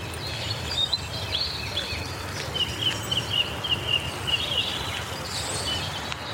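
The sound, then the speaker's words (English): A dawn chorus of birds sings on an Aberdeenshire estate. Faint, high chirps and short song phrases repeat over a steady, hissing background. “Derek sent us a recording of the Dawn Chorus out at Keith Hall. Here's a wee burst.”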